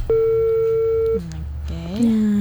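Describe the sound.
A telephone tone sounds after a call disconnects: a single steady, fairly loud tone holds for about a second. A voice and lower shifting tones follow.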